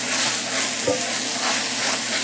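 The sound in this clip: Loud, steady sizzling as brown TVP goes into hot oil with ginger. The frying hiss runs unbroken through the whole clip, with a brief soft bump partway through.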